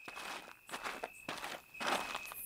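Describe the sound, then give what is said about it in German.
Footsteps walking and trotting along a street, a few brisk, quick steps in an uneven rhythm, with no voices. “Ich also gehe die Straße entlang, trabe, laufe immer wieder”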